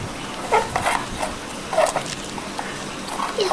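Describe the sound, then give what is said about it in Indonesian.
A dog barks in a few short, sharp yelps spaced apart, with a whimpering edge, over a soft background hiss. “Lagi jagain siapa sih anjing? Anjingnya lagi jagain siapa sih?”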